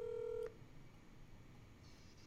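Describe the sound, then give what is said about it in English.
A telephone tone as a call is forwarded to an automatic voicemail: one steady beep lasting about half a second, then low line hiss and a tiny click at the end, with no talk. “Keith Grayson is forwarding me to an automatic voicemail. Here we go.”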